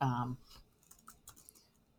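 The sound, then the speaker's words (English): Soft clicks of typing on a computer keyboard come in quick, irregular taps at low volume, following a brief voice at the start. “just typing into the document”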